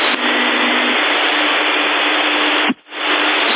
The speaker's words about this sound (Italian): Lo so che sei in macchina. Si sente, si sente.